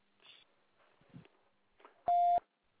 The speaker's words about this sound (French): Merci de laisser un message après le signal sonore.